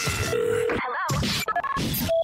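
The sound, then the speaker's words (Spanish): Telephone keypad dialing tones for a surprise call sound as a few short, steady electronic beeps of two mixed pitches, set against a dense, busy sound bed with brief gaps. “Pero esta llamada será la más codiciada, la más esperada Llamada sorpresa de la mejor FM.”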